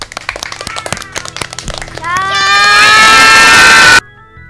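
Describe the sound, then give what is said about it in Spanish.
Schoolchildren from a primary school give a farewell applause: scattered claps and busy voices build into a loud, sustained burst of high-pitched cheering and shouting that holds for about two seconds and then cuts off abruptly. “¿Les parece que nos despidamos con un fuerte aplauso? ¡Sí! Muy bien, nos despedimos entonces hasta el jueves que viene con este aplauso de los chicos y las chicas de la Escuela 24.”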